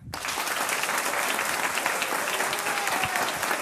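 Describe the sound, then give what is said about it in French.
Dense, steady applause from a large, masked studio audience greeting two game show contestants at a quiz show, a continuous patter of many hands without a break. “Avec des encouragements d'un public nombreux, masqué mais nombreux.”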